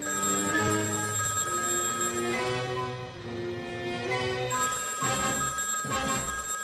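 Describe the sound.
A telephone rings repeatedly, a few bright, steady bell-like tones recurring at a fairly even rhythm and moderately loud level, with no one speaking.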